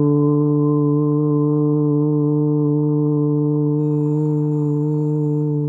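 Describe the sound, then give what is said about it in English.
A voiced 'voo' chant held out on one long breath: a single low, steady hum with a rich buzzing tone. It stays loud and even in pitch throughout and is heard alone. “The next method is called a voo chant. And I love this practice because when we chant, we actually create vibrational resonance in our body. This chant sounds like this.”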